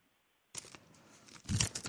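A sheet of paper, an NDA document, is handled and unfolded, giving soft rustling and crinkling that grows louder toward the end.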